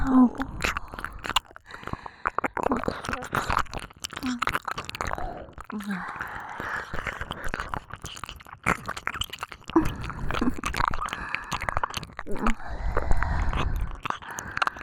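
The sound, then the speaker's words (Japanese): Close-up chewing and biting in the mouth, with dense wet smacks and small crunchy clicks continuing steadily throughout at a quiet level. “お口の中で咀嚼してあげます。”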